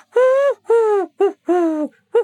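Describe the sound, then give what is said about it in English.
A wood pigeon calls in a garden ringed by trees, giving five low hooting coos in a long, long, short, long, short rhythm. Each note is clear and resonant, with no voices heard. “as you can hear outside in P-Flax's garden, the lowly call of a wood pigeon”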